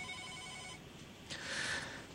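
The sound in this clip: Faint electronic telephone ring tone sounding before a call connects, a steady pitched tone followed by a brighter, louder burst of ringing.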